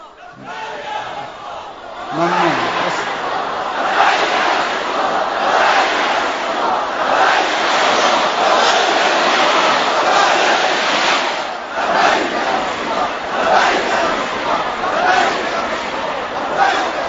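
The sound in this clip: A large crowd chants slogans at a political speech event: a loud, dense roar of many voices with rhythmic surges that dips briefly past the middle, then swells again.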